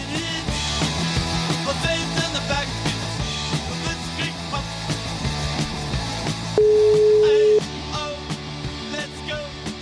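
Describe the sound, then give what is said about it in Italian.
A telephone ringback tone sounds while a call is placed: one steady, mid-pitched tone lasting about a second, rising above a dense, busy background. “Proviamo a chiamare un attimo, vediamo un po' se becchiamo la linea con Ferrero.”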